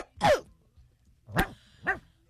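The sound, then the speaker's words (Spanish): A dog barks three times, loud and sharp, with a long pause after the first bark and the last two closer together. “Este perro estaba como raro, ¿verdad? Está raro. Sí, estuvo raro. Creo que le están pisando la pata.”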